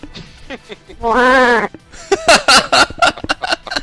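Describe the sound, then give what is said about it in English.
A human voice imitates a llama with one long, wavering, bleat-like cry lasting under a second, framed by brief bursts of speech before and after. “If you were a llama, what would you sound like?”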